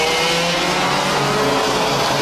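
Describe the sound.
Race car engine accelerating out of a corner on a circuit, a steady, loud, buzzing roar with a dense high hiss and a low droning undertone, holding an even level throughout.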